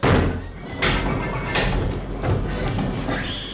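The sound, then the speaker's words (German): Dull, heavy crashes of a spade smashing a coffin lid lifted from an opened grave: a few broad, muffled thuds in steady succession, each a blunt impact with a short noisy tail, alone. “Da ertönte ein dumpfes Krachen.”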